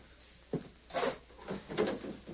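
A table drawer is opened, heard as a few short wooden scraping and sliding bursts of moderate loudness, with brief pauses between them and no talk.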